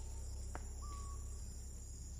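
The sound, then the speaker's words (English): Amazon forest ambience with a steady high insect drone, a sharp short bird chirp and then a thin, level whistled bird note, all faint, with no voices. “Those sounds you hear, they're forest sounds, aren't they? Birds and all sorts of birds and sounds of insects. And in fact, it's from the Amazon forest”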